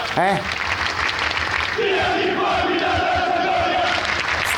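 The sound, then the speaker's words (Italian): Football supporters chant in protest against their club's ownership: a loud, continuous roar of many voices, with sustained sung chant lines rising out of the crowd noise partway through and holding to the end. “Fatemi sentire quello che dicono i tifosi,”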